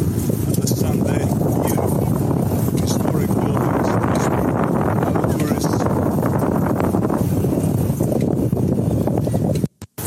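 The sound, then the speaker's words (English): Wind buffeting the microphone on a bike ride around Budapest: a loud, steady low roar with gusty rumbling throughout, cutting out abruptly just before the end. “Yes, got a lot of wind in there.”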